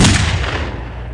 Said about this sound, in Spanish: una noche, Emilio agarró su pistola se la puso debajo del mentón y disparó.